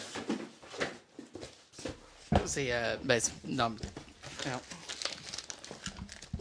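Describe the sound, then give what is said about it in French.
A cardboard shipping box for a handheld game console is handled and opened, with crinkling and rustling of packaging and a few sharper scraping sounds, while a person speaks through it. “Fait que je vais commencer avec la boîte de shipping.”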